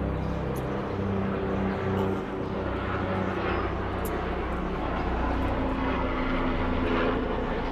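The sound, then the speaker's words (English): A propeller airplane flies overhead outdoors, producing a continuous droning engine roar with low, steady humming tones throughout and no talk. “we have an airplane, yes, folks. Yes, we'll hold yes, for the airplane. Yes, this is the benefit of recording outside.”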